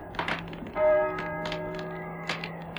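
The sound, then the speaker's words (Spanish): A church bell tolling at night, one deep, humming stroke that swells and slowly fades, surrounded by scattered sharp clicks and light knocks. “¿Oyes? ¿Oyes? Las campanas doblan.”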